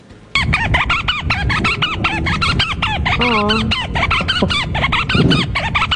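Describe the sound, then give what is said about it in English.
Tansy, a female African pygmy falcon, calling in a long run of rapid, shrill, squealing chatter, many loud repeated notes following each other almost without pause. “That is Tansy, the African pygmy falcon. She has a lot to say.”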